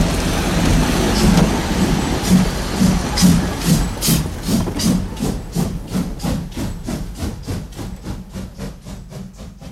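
Street traffic rumbles steadily beneath regular, repeating chugging pulses that continue evenly from start to finish.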